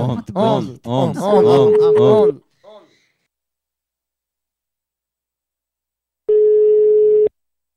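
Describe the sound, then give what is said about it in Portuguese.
Ringback tone of an outgoing telephone call, a steady low electronic tone lasting about a second, heard once under talk and again alone after a pause. “ligando aqui pra Damiana.”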